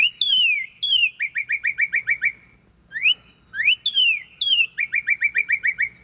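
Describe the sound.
A northern cardinal's main song: loud, clear whistled phrases, each opening with a downslurred note followed by a rapid run of repeated chirps. The phrase comes twice, with a short pause between, and no voices are heard.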